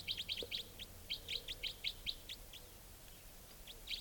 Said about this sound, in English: Wild bird. Doing a rapid type 4 series.